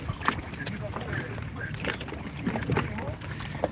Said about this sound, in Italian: Ma sempre ascoltando La Zanzara, io sto sulla mia barca a mare. Sentite?